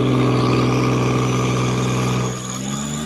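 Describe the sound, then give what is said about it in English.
Engine revving hard on a mainline chassis dyno during a wastegate-pressure-only pull from a car making about 762 wheel horsepower: a loud, sustained, harmonic roar that holds steady, then eases slightly near the end. “can we watch this pull real quick? Yeah. As it sits on the on the mainline dyno here. Yeah, I think what was this one? Like a 762 to the wheels, wastegate pressure only.”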